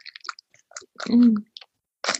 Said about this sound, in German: Das riecht aber nach Ananas. Sehr nach Urlaub, ja. Mhm, dann koste mal.